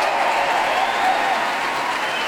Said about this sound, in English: Large applause there for the timpanist, the percussion section, all of the orchestra now on their feet.